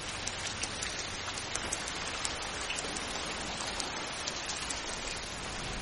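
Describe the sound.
Steady rain falls at night on a man covered with a waterproof cloth. It makes a continuous soft hiss with scattered faint drop taps and stays fairly quiet throughout.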